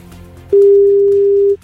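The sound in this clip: Telephone ringback tone of an unanswered call: a single steady, mid-pitched electronic tone lasting about a second, heard alone over faint background hiss.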